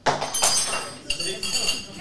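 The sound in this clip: Glass bottle clinking as it is handled and lifted toward the nose, with a few sharp, bright clinks and light rattling over about two seconds.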